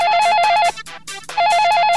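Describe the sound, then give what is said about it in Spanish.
An electronic telephone ringtone trills loudly in a rapid, warbling pattern. It sounds in two bursts separated by a short break. “Ahí está, ese teléfono que no puede parar de sonar en toda la tarde, porque tenemos un montón de premios para todos vosotros.”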